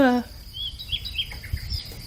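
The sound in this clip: Small birds chirp faintly in a few thin, high, brief twitters after a short voiced sound at the start, with a soft low rumble underneath.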